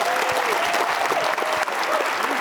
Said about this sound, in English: How about some applause for that?